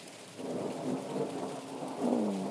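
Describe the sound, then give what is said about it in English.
Thunder rolls as a low, continuous rumble over steady rain, swelling slightly louder toward the end. “getting closer, I think, thunder.”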